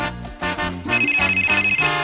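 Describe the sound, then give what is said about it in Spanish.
Telephone ringing inside a radio contest jingle: bright, bell-like ringing tones over a musical bed of stepping low notes, with no talk. “Siempre tempranito, ring, ring. Óyelo sonando.”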